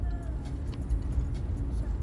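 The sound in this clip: A car being driven gives off a steady, low engine and road rumble that holds at an even level for the whole stretch, with no distinct separate events.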